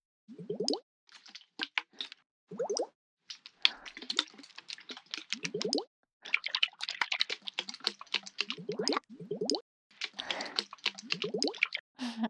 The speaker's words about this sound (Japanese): 容器の形が変わっただけで音の伝わり方もまた違って聞こえる。ほら、一緒に振ってみるから聞き比べてみて。